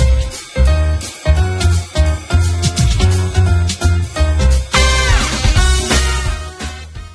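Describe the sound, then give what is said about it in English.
Single-player theme music from the video game Choo Choo Rocket: a loud, upbeat electronic track with a steady pulsing beat under bright, bouncy melodic synth lines. “what you just heard was a track from Choo Choo Rocket. That was the single-player theme”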